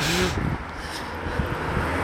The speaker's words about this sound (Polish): Kurde, jedzie akurat teraz samochód.